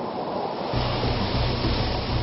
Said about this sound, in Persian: پس موسی عصای خود را به طرف دریا دراز کرد و خداوند با باد شدید شرقی آب دریا را 2 شق کرد.